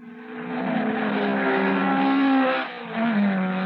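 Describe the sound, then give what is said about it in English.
High-performance car engines revving in a steady, loud roar whose pitch climbs, cuts out briefly, then returns slightly lower. “That's the sound of high-performance engines.”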